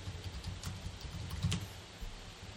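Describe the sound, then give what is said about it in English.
Faint typing on a computer keyboard, a few soft, irregular key clicks over a steady low background hum. “I typed in Allentown Plumber.”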